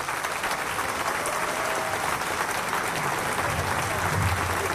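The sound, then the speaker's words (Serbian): Thunderous applause from a packed open-air summer stage audience at the opening of a film festival in Niš: a dense, unbroken roar of clapping that holds steady and loud throughout. “Prepuna letnja pozornica pozdravila je gromoglasnim aplauzom našu filmsku i muzičku legendu Snežanu Savić, koja je otvorila ovaj festival.”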